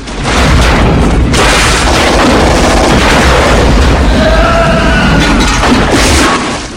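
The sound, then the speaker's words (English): Explosions going off all around during a gunfight on a crane: a loud, continuous roar of booming blasts and crackling debris that holds steady for several seconds before dropping away at the end. “Explosions blossom all around.”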